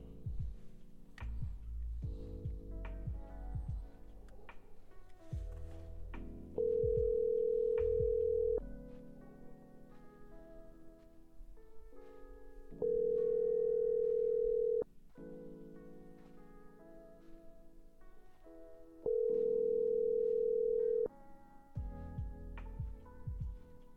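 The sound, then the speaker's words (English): Ringback tones while placing a call by switching between an internet calling service and a regular phone: three steady, evenly spaced tones of about two seconds each, repeating every six seconds or so, loud over continuous background sound. “I'm bouncing back and forth between Google Voice and my regular phone to try to make calls”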